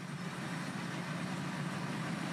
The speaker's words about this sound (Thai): วันนี้วันเกี่ยวเนาะผมก็เอารถมาใส่ในแปลงนาไปเลย